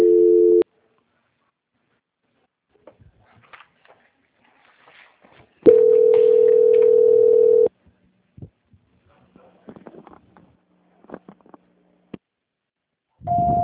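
Telephone line tones sound during a call transfer: a short steady tone, a longer one after a long gap, and a third at the end, with near-silence and faint clicks between them.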